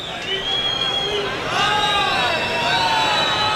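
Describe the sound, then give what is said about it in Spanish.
An angry bullfight crowd protests the bull's behaviour, a broad din of jeers and noise that swells partway through and stays raised, heard beneath continuous speech. “Y hay las protestas que escuchamos del público. Claro, el público está muy enfadado.”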